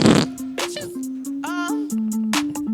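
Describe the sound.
Fart sound effects from a soundboard, with several buttons pressed at once, form a continuous buzzy, tonal blast lasting nearly three seconds, its pitch stepping up and down between short segments.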